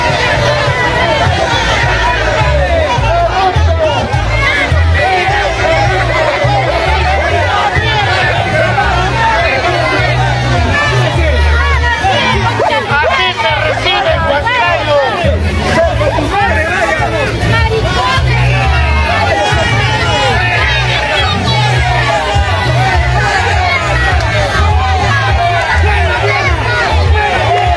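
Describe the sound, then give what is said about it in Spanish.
A crowd protests against Keiko Fujimori's campaign caravan in Huancayo, a loud, continuous mass of shouting and overlapping voices that holds steady without a break. “protestas ante llegada de Keiko Fujimori o Huancayo, candidata, participó de caravana de mitin con miras a la segunda vuelta y sin embargo la fue rechazada por la población.”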